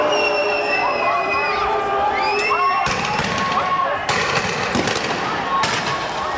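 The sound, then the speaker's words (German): Riot crowd in Geneva during the 2003 G8 summit demonstrations, with police using water cannons, rubber bullets and tear gas: a dense roar of shouting people with several sharp, loud bangs cutting through the second half. “In Évian-les-Bains ist damals der G8-Gipfel und in Genf wüten nach einer Demonstration Chaotinnen und Chaoten und Vandalen. Die Polizei schreitet mit Wasserwerfern, Gummigeschossen und Tränengas ein.”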